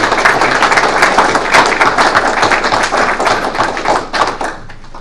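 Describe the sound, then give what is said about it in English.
An audience applauds with dense, continuous clapping from many hands, loud and steady, thinning out slightly toward the end. “Let's give them a round of applause.”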